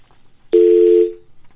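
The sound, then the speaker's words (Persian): A telephone line tone sounds after a call drops: a single loud, steady electronic tone lasting about half a second, then cut off with a brief fading tail into quiet. “متاسفانه تماس ما با آقای همدرد قطع شد.”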